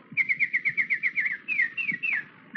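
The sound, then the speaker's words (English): A person whistles an imitation of a nightingale's call as a danger signal: a quick run of many short, high, evenly spaced whistled notes, then a few longer slurred whistles, with soft low thumps underneath. “But if there is danger, I shall make the sound of the nightingale like this.”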